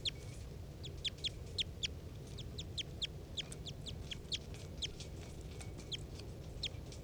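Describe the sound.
A wild bird calls in response to a decoy with many short, high-pitched chirps repeating in quick, irregular bursts. The calls are faint over a steady low background rumble.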